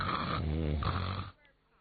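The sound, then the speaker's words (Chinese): A voice imitates snoring with low, raspy, throaty breaths, a short run of drawn-out snore sounds that stops abruptly and leaves a near-silent tail. “这边躺下呼噜呼噜的打起呼噜来了”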